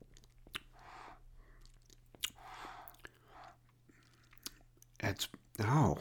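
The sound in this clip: Quiet sipping and tasting of an oak-aged, grape-based spirit distilled from wine: soft breaths, lip smacks and small mouth clicks, ending with a few louder murmured vocal sounds.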